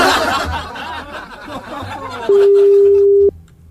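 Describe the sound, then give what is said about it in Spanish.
A telephone call being placed gives one loud, steady mid-pitched line tone lasting about a second, after a stretch of busy chatter and light laughter. “¿Podemos generar una llamada? Sí, podemos generar una llamada.”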